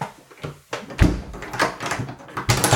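A door being locked as a comic sound-effect gag: a series of knocks, thuds and latch clicks, fairly loud and irregularly spaced.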